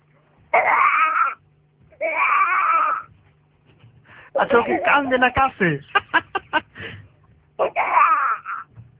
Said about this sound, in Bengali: তোমার বাচ্চার কান্না শুনবা?